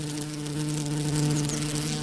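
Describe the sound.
Steady insect buzzing, as of bees drawn to the bright male flowers of a holm oak, holds a continuous droning hum at an even level throughout, with no voices.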